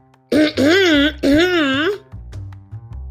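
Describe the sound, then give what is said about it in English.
A loud throat clearing comes as two drawn-out, rasping voiced bursts with a wavering pitch, followed by a quieter, fading tail. “cleared her throat loudly as to interrupt our conversation”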